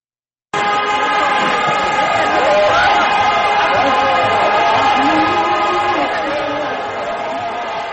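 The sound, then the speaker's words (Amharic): Crowd sound from the Timket (Epiphany) celebration in Gondar, Ethiopia: a dense, loud, steady wash of many voices with sustained tonal layers, holding constant before easing slightly near the end. “ጥምቀት በዓል ቁጥራቸው እጅግ በበዛ ታዳሚዎች ጎንደር ላይ በድምቀት እየተከበረ ነው።”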